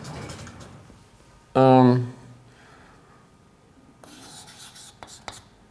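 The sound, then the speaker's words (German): Handwriting strokes as someone writes out a case while working through operands, heard as soft scratchy rubbing in short bursts, with a brief loud voiced sound earlier. “ja, ich schreibe es mal so hin”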